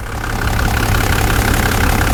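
An engine running at a steady idle, a loud, continuous low rumble with an even churning texture that holds constant throughout, with no talking.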